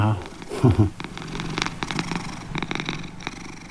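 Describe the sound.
A cat purrs at home, a soft rhythmic rumbling throb that runs for several seconds, with a brief louder voiced sound near the start.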